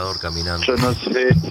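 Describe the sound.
Crickets chirp in a steady, high, continuous trill while a voice sounds over them.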